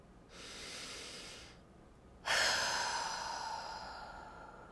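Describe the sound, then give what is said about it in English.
A slow, deep breath in and out: a soft, airy inhale lasting about a second, a short pause, then a louder, breathy exhale that gradually fades. No one speaks. “Just stop what you're doing and breathe.”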